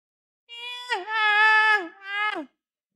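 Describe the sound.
A hungry baby's cry: one tonal, wailing cry of about two seconds, steady in pitch with a brief break in the middle, then dropping sharply at the end, alone against silence.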